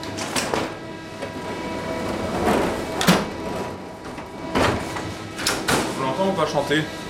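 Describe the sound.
A bakery oven door opens as hot baguettes come out: a few clattering, sliding knocks over a steady background hum.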